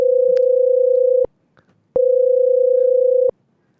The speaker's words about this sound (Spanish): A ver, le estoy marcando.